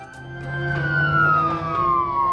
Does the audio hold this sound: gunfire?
no